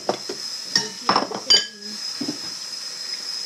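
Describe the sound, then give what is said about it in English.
Bowls being handled, knocking together in a few bright, sharp clinks, followed by quieter handling sounds. “I got the bowls over here.”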